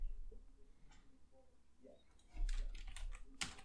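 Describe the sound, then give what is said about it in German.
Typing on a computer keyboard, with soft rapid key clicks that grow busier and louder in the second half, over a quiet low hum. “Er schreibt jetzt auch.”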